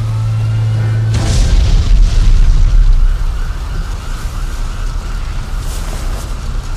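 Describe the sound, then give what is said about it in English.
A garage explodes in a loud, deep boom that cuts off a low steady hum. A heavy rumble sustains for about two seconds, then dies down to a softer, rough noise that trails on to the end. “Bruce and Drake got Harvey out just as the garage exploded.”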